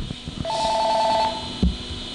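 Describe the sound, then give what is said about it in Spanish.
A telephone rings with an incoming call, giving one short, bright electronic trill that lasts under a second before quieter background sounds return. “Bueno, tenemos otra llamada por aquí.”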